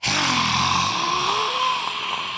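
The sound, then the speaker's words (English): A forceful, breathy exhale is pushed out with the tongue sticking out, done as a stress-releasing breathing exercise. It makes a loud, steady rush of air lasting about two seconds, with a low, rasping voiced undertone early on. “do what we call the dragon breath, where you breathe in and then you get your tongue right out and you go”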